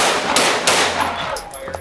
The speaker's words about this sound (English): And when someone spoke to him and said, drop the gun, he raised the flashlight to see who was speaking to him, and that's when the officer shot four times.